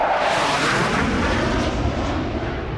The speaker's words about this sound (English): Two Ukrainian jets flying very low overhead.